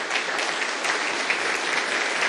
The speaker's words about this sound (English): Let's give them another round of applause. They did a fantastic job.